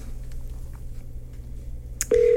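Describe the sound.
A telephone line tone during a call begins near the end as a steady, loud, low-pitched hum, after a quiet stretch of background noise with a brief click just before it.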